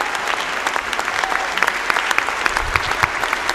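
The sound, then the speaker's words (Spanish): Applause from a standing audience at a presidential re-election ceremony: dense, continuous clapping that stays steady throughout, without pauses. “Se ponen todos de pie para aplaudirlo.”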